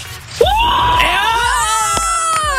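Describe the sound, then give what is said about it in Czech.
Joyful shout from a person celebrating a new electric scooter: one loud, sustained yell that jumps up in pitch at the start and holds for about two seconds. “Pokaž, jakou máš radost, zakřič!”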